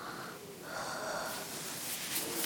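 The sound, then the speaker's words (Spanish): Breath blown onto someone's hand: soft, airy exhalations with a slightly wheezy, snuffling texture, steady and fairly quiet, with no talking. “Luego le coge la mano de su pecho y le echa el aliento.”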